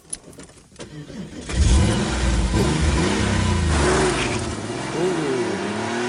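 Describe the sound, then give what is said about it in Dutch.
A Porsche 911 engine cranks, catches, and bursts into a loud roar, then keeps revving with a few rising and falling swells of pitch. “Wat hoorden we? We hoorden een Porsche, volgens mij. Ja, want dat een Porsche 911.”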